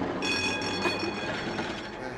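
Tram in motion, a dense, steady rumble with thin high whining tones running through it, even in loudness from start to end.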